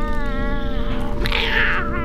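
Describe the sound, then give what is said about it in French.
A cat meowing: a drawn-out, wavering, wailing meow that rises in the middle, set over a constant low droning hum that partly masks it. “Sale chat, sale chat, sale chat.”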